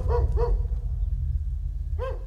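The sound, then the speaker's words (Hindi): A dog barks loudly as it rushes through the open gate of a long-closed bungalow: three sharp, harmonic barks, two close together at the start and one more after a pause, over a steady low rumble. “अचानक Bruno जोर जोर से भौंकता हुआ बड़ी फुर्ती से उस बंगले के अंदर घुस गया।”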